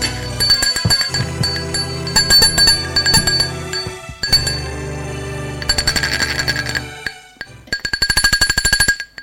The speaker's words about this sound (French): on a sonné à sa porte. Elle va ouvrir.